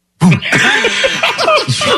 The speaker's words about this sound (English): Then he starts his cough.